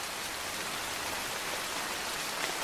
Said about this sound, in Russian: Капли воды падают с неба на землю. Начался густой ливень. Над куполом леса хлещет ливень.